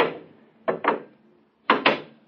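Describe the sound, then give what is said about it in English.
A door shutting in a science-fiction radio drama sound effect. A decaying knock is followed by two quick pairs of sharp wooden thuds, each pair a rapid double impact that dies away. “The door's closed behind us.”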